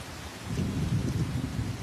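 Steady rain heard from a sports ground building where people shelter, a dense, even hiss with a low rumbling undertone that holds at a moderate level throughout, with no talking.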